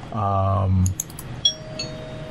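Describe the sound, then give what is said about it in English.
A spoiler-alert bell sound effect: a loud, low buzzing tone, then a few bright, high chimes with a faint lingering ring. “the spoiler bell is one of the few sound effects that always comes through really loud”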